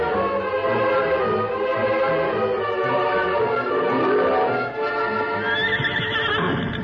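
A horse approaching with steady, rhythmic clip-clopping hoofbeats, and a loud whinny rising partway through.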